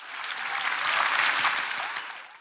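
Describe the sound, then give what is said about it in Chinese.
Audience applauding loudly in the rain: a dense, sustained clatter of many hands that builds, holds, then eases slightly at the end. “继续大声鼓掌，各位，你们都冒着雨，”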